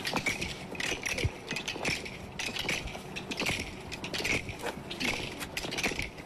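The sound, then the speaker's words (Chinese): Hooves of a black horse clop in a steady, brisk rhythm: a continuous run of sharp clattering beats at an even, moderate loudness, with no voices. “那边马蹄声已由远及近，一位骑着黑马的超级英雄即将登场。”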